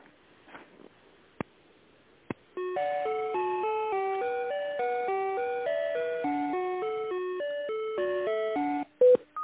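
Electronic tones play on a phone line while a call is transferred: a couple of sharp clicks, then a steady stepping melody of pure beeps at changing pitches that runs for several seconds and breaks off with a final click.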